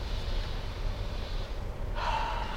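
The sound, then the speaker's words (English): A deep breath during a guided meditation, a long, soft, airy breath sound that turns brighter and breathier toward the end. “Deep breath.”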